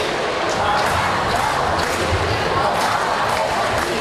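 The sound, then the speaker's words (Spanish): A crowd of 40,000 cheers the Pope's entrance at Montjuïc Olympic Stadium, a loud, dense roar of many voices that holds steady throughout. “Al acto han asistido 40.000 personas, más centenares que se han quedado fuera. Así saludaban la entrada del pontífice.”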